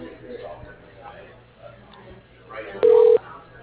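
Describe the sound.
A single telephone keypad tone, as when dialing an extension, sounds as one short, steady two-note beep near the end. It is clearly louder than the faint, muffled background noise before it.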